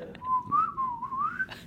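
A person whistles a short tune to teach a cockatoo to sing: a single clear, mid-pitched whistled line that wavers, dips slightly and then rises toward the end, with no talking.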